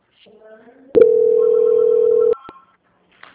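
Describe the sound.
Telephone line tone during a call transfer: a brief voice, a click, then a single steady mid-pitched tone held for over a second before cutting off with another click.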